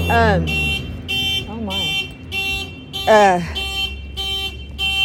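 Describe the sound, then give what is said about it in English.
A car alarm goes off, cycling through loud whooping pitch sweeps and runs of steady, repeated electronic tone bursts in a rhythmic, insistent pattern. “Okay, somebody's alarm.”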